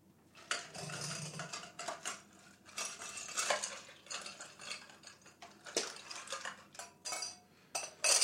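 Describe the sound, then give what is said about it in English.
Bar spoon stirring an all-spirits cocktail with a couple dashes of bitters at home, making many quick, irregular clinks and scrapes against the glass at moderate loudness. “Then we're going to give it a couple dashes of bitters. All right. This is going to be stirred. It's all spirits, so it's going to be stirred.”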